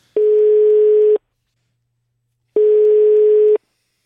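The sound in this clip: Telephone line tone on a call to a school sports centre, two loud, steady, low-pitched beeps about a second long, separated by a pause of more than a second.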